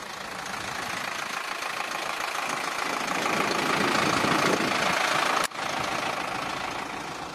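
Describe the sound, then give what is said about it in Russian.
A modern Zetor tractor engine runs with a loud, steady, rough drone and a low, uneven throb, broken once by a brief sharp dip before resuming at the same level. “То, что вы слышите, музыкальная заставка к видеоролику, в котором потенциальным клиентам фирмы представлена одна из современных моделей тракторов «Зетор» в действии.”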